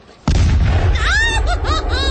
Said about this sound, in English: That was the morning gun. We're not under attack. Oh, why do they fire that cannon every morning at 7 o'clock?